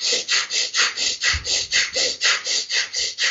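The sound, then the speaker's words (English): Forced exhales in a standing breathing exercise, a rapid, even series of many short breathy bursts pumped out in a steady rhythm, each one a soft hiss of air. “So, getting that force exhale. It's harder to do it standing up.”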